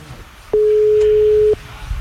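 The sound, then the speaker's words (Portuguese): A single steady telephone tone plays while a call is being placed. It is mid-pitched and lasts about one second, standing alone over faint low background noise. “Vamos ligar pro Yuri Duque agora, vai. Liga”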